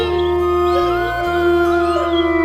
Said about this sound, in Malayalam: നായ്ക്കളുടെ ഓരിയിടൽ കേട്ട് ജാനിക